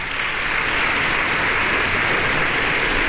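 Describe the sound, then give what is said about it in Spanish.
An audience applauds in the concert hall of the Centro Cultural Tlacná, a steady, even stream of many hands clapping that holds its level from start to finish. “Sus compañeros también se unen a los aplausos del público reunido el día de hoy en la sala de conciertos del Centro Cultural Tlacná.”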